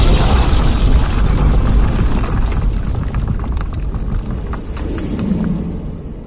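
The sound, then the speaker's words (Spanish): A bomb dropped during an air raid explodes in a loud, sustained roaring rumble with no sharp onset, its dense noise thinning slightly as it rolls on. “La bomba cayó exactamente encima de los niños, pulverizándolos de inmediato.”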